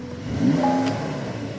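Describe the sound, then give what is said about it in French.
A flat-six car engine revs faintly for a brief moment, a low steady rumble with a short tonal whine rising out of it and then settling back. “si, ça, c'est un flat 6. Ça, c'est un son de flat 6.”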